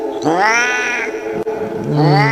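A cat meows in two long, drawn-out wailing calls with a wavering pitch, the first stretching over a second and the second starting near the end, loud and alone without voices.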